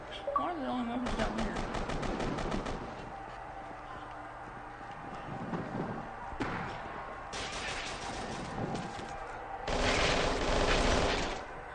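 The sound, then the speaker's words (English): Automatic gunfire in the video game Kane and Lynch: several rapid machine-gun bursts separated by quieter gaps, the final burst the loudest, with voices talking in between. “Oh, so the weapons are down here where the guys are shooting, right?”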